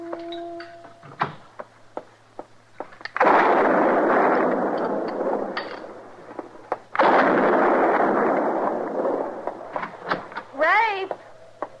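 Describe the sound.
Gunshots ring out in an old radio western drama. A few sharp cracks are followed by two heavy, booming blasts with long rumbling tails, and scattered clicks and smaller pops fall between them.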